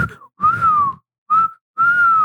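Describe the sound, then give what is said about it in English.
A person whistles an imitation of a turkey vulture: four sustained mid-pitched notes, the first short and softer and the rest steady and loud, each sliding slightly downward at its end, separated by brief silences. “why was I trying to whistle a turkey vulture?”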